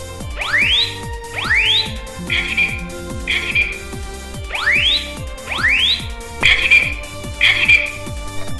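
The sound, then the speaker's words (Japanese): A white, round residential fire alarm sounds during a demonstration in a large meeting room. It gives two rising whoop sweeps, then two bright beeps, and repeats that pattern once, loud and shrill. “これ自宅で鳴ったらかなり大きな音で、まあ、気づきますね。これは そうなんですよ。実際に長岡市でもこの住宅用火災警報器”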